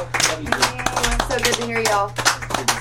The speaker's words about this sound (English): Y'all fucking give her a big round of applause